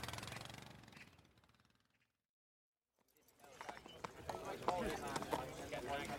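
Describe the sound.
Horse hooves clip-clopping at a trot, faint and uneven at first, then a brief silence before many sharper, rhythmic clops return with people talking over them.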